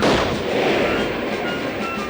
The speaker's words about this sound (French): Le chasseur est soudain interrompu par un boulet de canon. Il a été envoyé avec une telle force qu'il creuse un large sillon dans la terre, ce qui donne une idée à Œil de Faucon.